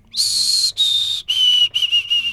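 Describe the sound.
A person whistles an imitation of a white-throated sparrow song: clear, high, pure notes, starting with a few long held tones and ending in a quicker run of shorter ones, the pitch stepping slightly lower.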